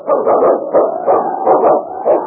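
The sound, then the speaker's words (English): A lead sled dog barks in a steady series of about seven muffled, mid-pitched barks, evenly spaced and fairly loud, with a faint continuous hum beneath them. “Kit King, swiftest and strongest lead dog of the North Country”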